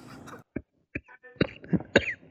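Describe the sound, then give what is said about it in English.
A person coughs several times in a quick, irregular series of short, dry bursts, fairly faint and with brief silences between them. “Sorry, I have a bit of a cough.”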